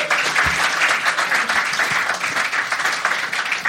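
Audience applause welcomes two guests, one a longtime radio presenter and the other an author, onto the stage: dense, steady clapping from many hands that holds evenly throughout, with no voices above it.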